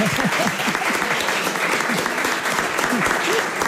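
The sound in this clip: A studio audience applauds a guest's mother on a family programme, with dense, steady clapping throughout and a voice speaking over it.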